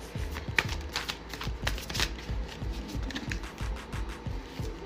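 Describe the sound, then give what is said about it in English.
Playing cards being shuffled and pulled from a deck: many rapid, crisp ticks and flutters in a steady, brisk rhythm, with no talking. “Let me pull some more cards.”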